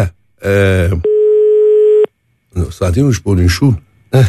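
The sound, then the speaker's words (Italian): A single steady telephone line tone, about one second long and mid-pitched, sounds while calling a butcher's shop in Oliveto Citra. A man talks just before and just after it. “chiamiamo direttamente Oliveto Citra, vediamo se hanno giocato i numeri, se risponde qualcuno.”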